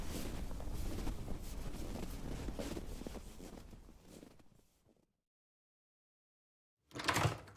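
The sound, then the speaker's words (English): Rushing, blustery wind outdoors on a freezing day, loud at first and then dying away into silence, followed by a brief loud burst near the end. “Holy God, it is so good to get in out of that wind.”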